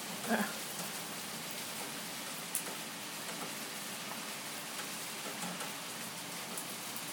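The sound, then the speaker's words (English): Heavy, wind-driven rain pelts the front of a gas meter cupboard with a steady, fairly faint hiss and patter. A few sharper taps break through, one near the start and another a couple of seconds in. “Raining so hard that it's actually blowing and hitting the front of the gas meter cupboard. Yep. That's what that noise is, you can hear that.”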